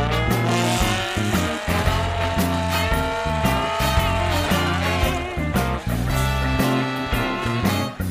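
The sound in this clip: A car speeds off with its tyres squealing. The engine roar is loud and sustained for the whole stretch, with a dense, tonal sound that holds steady and dips only briefly.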